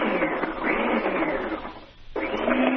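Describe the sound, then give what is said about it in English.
Steady motor whir as zucchini, squash and carrots are sliced, running loud and continuous, then dropping away briefly near the end before starting up again at full strength. “How's that for two zucchini sliced? Is that what you did? Slicing up zucchini? Yeah. Zucchini and a squash, and the carrots.”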